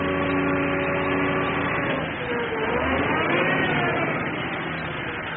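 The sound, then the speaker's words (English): Engine drone from construction work on huge new tsunami walls in a coastal town where land is being raised with rock and soil. The sound is a steady, loud rumble that swells and eases slightly without stopping. “Everywhere is the sound of construction.”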